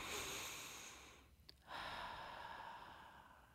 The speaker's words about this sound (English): take a deep breath with me.